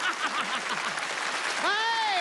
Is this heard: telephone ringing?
no

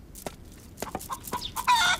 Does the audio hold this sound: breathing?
no

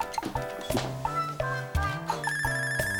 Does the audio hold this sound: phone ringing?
yes

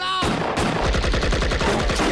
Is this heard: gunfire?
yes

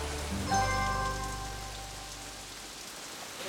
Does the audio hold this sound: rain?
yes

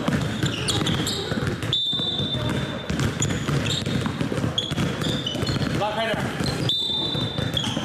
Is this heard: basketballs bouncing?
yes

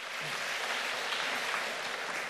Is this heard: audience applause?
yes

